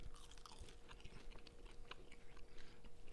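Chewing food up close for ASMR: quiet, wet crunching and biting sounds in an irregular rhythm, many small crackles over a soft, steady background.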